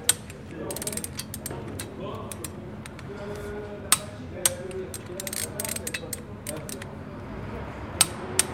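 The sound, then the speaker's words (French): Rapid ratcheting clicks of a torque wrench tightening a car wheel in a garage, a dense run of mechanical clicks with a few sharper, louder clicks standing out. “Pour vérifier que la roue est assez serrée, dans notre garage, on utilise une clé dynamométrique.”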